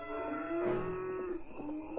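Cattle lowing from a restless herd at night during a trail drive: a long, drawn-out moo followed by a shorter one, deep and steady with no other sounds.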